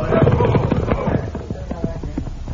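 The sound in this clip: Horses' hooves clip-clopping as a sheriff's party of riders approaches, a steady run of quick hoof beats mixed with other sound throughout.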